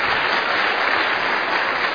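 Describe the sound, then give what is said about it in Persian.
Applause from a marriage class audience, mostly married couples, fills the moment as a steady, dense wash of clapping hands without pause. “متأهلا واسه چی دست دادن؟ بله بله، متأهلا بیشتر از مجردا دست دادن.”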